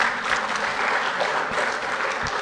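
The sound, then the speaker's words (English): Audience applause after a contest round, a dense, steady wash of clapping that holds at an even level for the whole stretch without any clear talk over it. “Give these guys a round of applause.”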